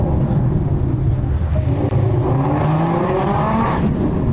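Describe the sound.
Car engine roars steadily during a street race chased by police, a loud, continuous rumble of acceleration with hints of tire noise, unbroken for the whole stretch and with no voices over it.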